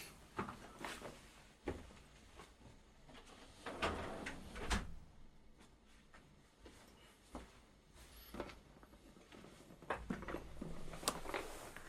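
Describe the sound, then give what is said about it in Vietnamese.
A door is being closed: faint, scattered clacks and soft thumps with a sliding, rattling quality, spread unevenly over several seconds. “Đợi một chút mình đóng cửa cái.”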